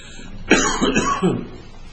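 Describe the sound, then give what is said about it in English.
A cough from allergies: one sharp, forceful burst followed by a couple of rougher, throaty follow-up coughs, moderately loud and alone, with no talk. “Now, this cough is not COVID. It's allergies.”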